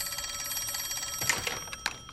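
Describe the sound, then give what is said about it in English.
A telephone rings at a sheriff station with a steady electronic trill that pulses evenly throughout, joined by a few brief louder clatters toward the end. “Why do the phones keep doing that?”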